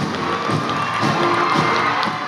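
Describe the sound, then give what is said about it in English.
A crowd of about 900 supporters cheering at an appearance by President Clinton, a sustained roar of shouts and whoops with clapping mixed in, holding steady throughout. “President Clinton told the crowd of 900 cheering supporters that his presidency has dramatically changed America for the better.”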